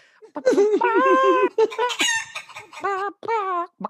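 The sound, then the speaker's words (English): Chicken clucking comes in a string of loud, strident harmonic calls, several drawn-out squawks broken by short pauses, alone with no talk. “Like, what are you, a chicken? What's happening right now? It's like, this is my new gibberish jukebox.”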